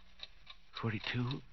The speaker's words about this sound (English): The clock's beginning to look like people, like Mama.